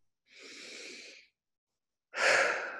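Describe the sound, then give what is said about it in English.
A deep, slow breath taken in and then let go, heard as two soft airy rushes with a pause between them, the second one louder and fuller, with no talking. “Nice deep letting go breath.”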